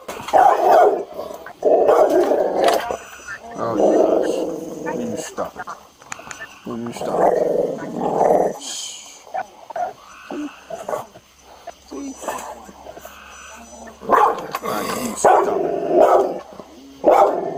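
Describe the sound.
A temperamental dog barks in several loud bursts, with voices mixed in around the barks.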